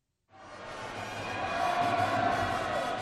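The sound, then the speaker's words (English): Crowd noise at a high school basketball tournament in a hot little arena in Kano, northern Nigeria: a dense, continuous roar of many voices. It swells quickly and then holds at a loud, steady level. “Sam Amedu has come to Kano in northern Nigeria, near the edge of the Sahara Desert, for a regional high school basketball tournament. 3 days of tall, skinny teenagers slashing and hacking in a hot little arena.”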